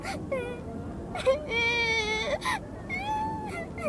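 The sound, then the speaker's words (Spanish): A young girl cries, with high, wavering wails and whimpers broken by short sobbing breaths, rising and falling in pitch across several bursts. “Yo voy a ayudarte a encontrar a tu mamá. No llores, chiquita, tranquila.”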